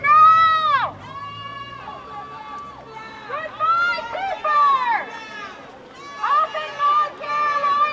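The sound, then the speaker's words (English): A crowd of stay-at-home protesters in Raleigh shouting in loud, ringing bursts of raised voices, rising and falling with short lulls between. “That's the sound of protesters during a second week of Tuesday stay-at-home protests in Raleigh.”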